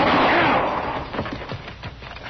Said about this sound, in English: Where are they? Where did they shoot from?